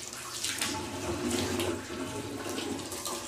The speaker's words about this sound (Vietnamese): Đây, rửa đầu ngón tay này 3 lần, xong rồi mình làm này, mình gộm nước. Rửa 3 lần, gộm rồi nhổ ra.